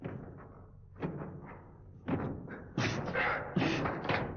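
Powerful punches land on a target during martial arts training in a dubbed 1980s film, a few dull thudding impacts spaced irregularly over a faint, rough background.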